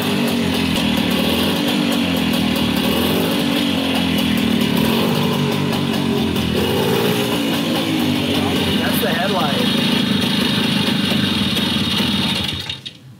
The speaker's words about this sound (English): we got the bike cranked up and running